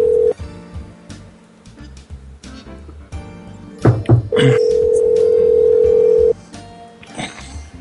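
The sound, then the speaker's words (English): A telephone switchboard line being dialed: a brief tone, a few short dialing beeps with clicks, then a loud, steady tone lasting about two seconds before cutting off, with faint handling noise around it. “Let me hang up then. I'll dial on the switchboard.”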